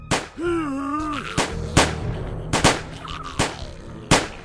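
Gunfire cracks through an audio drama action scene, several loud, sharp shots spaced apart over a low background rumble, after a drawn-out vocal cry at the start.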